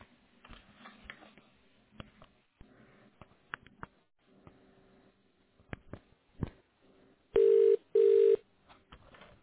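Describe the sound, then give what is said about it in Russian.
Touch-tone keypad beeps sound as a four-digit internal extension is dialed into an office phone exchange. Two short, loud, steady tones come near the end, after scattered soft clicks and rustling. “Для соединения с абонентом наберите внутренний четырехзначный номер в тоновом режиме.”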